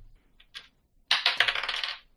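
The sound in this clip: Dice rolled for an initiative roll in a tabletop game: a couple of light clicks, then a quick rattling run of bright bounces that clatter and die away, quiet and with no voices.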